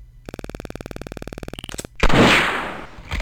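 Video game gunshot at a ceramic flower pot target: a fast, even run of many ticking clicks, then a loud blast that trails off in a long noisy decay, with another burst starting at the end.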